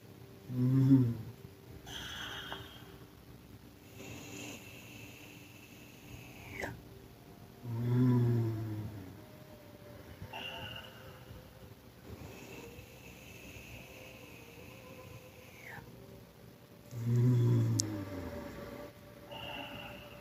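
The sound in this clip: Deep gulping breaths in a breathing exercise by a person on the floor: three heavy, low intakes spaced several seconds apart, each swelling then fading over a faint steady hum.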